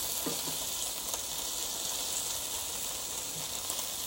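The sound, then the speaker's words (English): Bacon frying in a pan gives off a steady, bright sizzling hiss of spitting fat. Faint crackles run through it for the whole stretch, with no voices. “Let's flip it. Yeah, look at that. Some good bacon right there, boy. There's some good bacon right there,”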